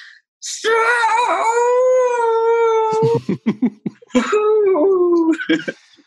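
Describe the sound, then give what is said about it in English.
A wolf howling: a long, sustained, slightly wavering howl, then a run of short choppy yelps, followed by a second shorter howl and a few more yips. “They almost forgot about the wolf. And then see, that's the problem, is people always almost forget about the wolf.”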